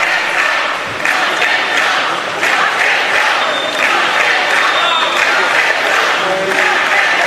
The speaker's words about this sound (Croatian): Jutros se sudu u Madridu odazvao 15 katalonskih dužnosnika, dočekani su pljeskom pristaša.